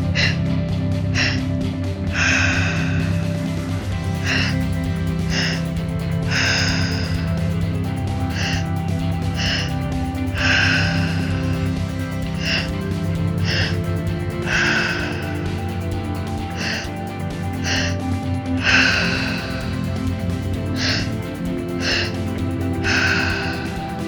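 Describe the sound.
Deep breathing during a guided breathing exercise: many short, airy inhales and exhales over a soft, sustained musical backdrop.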